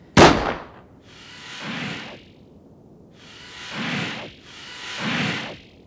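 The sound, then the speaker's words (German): A single sharp rifle shot cracks out at the start, loud and abrupt. Three slower whooshing swells follow, each rising and fading, with no talk. “ich muss Ihnen danken, dass Sie auf mich geschossen haben. Ich hab nicht auf Sie geschossen. Es war ein Unglücksfall.”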